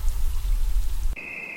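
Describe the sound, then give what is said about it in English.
Bubbling water in a video game makes a dense watery gurgle that cuts off abruptly about two-thirds of the way through. A steady, high-pitched tone follows. “Bubbles. Bubbles.”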